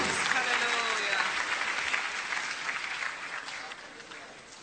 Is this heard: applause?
yes